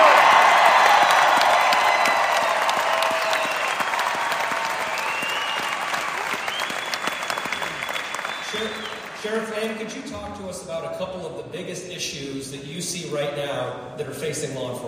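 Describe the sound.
Strong applause with a few cheers greets a sheriff walking on stage at a political panel event, loud at first and gradually fading over several seconds before a man begins speaking.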